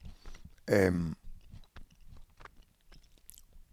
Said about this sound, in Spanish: Y estoy comiendo nueces. Estoy con hambre hoy.